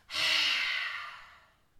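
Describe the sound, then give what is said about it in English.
A long, breathy exhale pushed out through an open mouth with the tongue out during a yoga cleansing-breath exercise. It starts abruptly as a strong airy hiss, then gradually fades over about a second and a half. “We've got three deep, full cleansing breaths here. Inhale. Exhale, open your mouth, stick out your tongue.”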